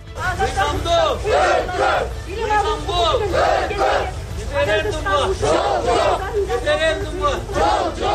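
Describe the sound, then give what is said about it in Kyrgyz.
Marchers in Bishkek on a weekly Sunday peace march for legality chant slogans against a referendum. The loud crowd voices rise and fall in unison in short repeated phrases, about one every second or so. “Бишкекте активисттердин ар жекшембиде өтчү мыйзамдуулук үчүн деп аталган кезектеги тынчтык жүрүшүнүн катышуучулары бүгүн референдумга каршы ураан чакырышты.”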